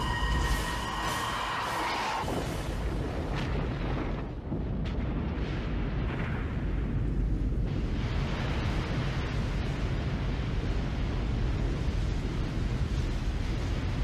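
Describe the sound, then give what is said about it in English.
A torpedo explodes underwater near a submarine as a deep, roaring rumble that swells and stays loud and dense for many seconds. A steady tone sounds at the start and cuts off early. “Torpedo, dead ahead.”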